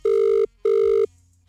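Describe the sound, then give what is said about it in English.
Ringback tone of a telephone call just after dialing: two steady, buzzing electronic rings of equal length separated by a short pause, then quiet with a faint low hum. “All right, going to dial now. I really hope they answer this.”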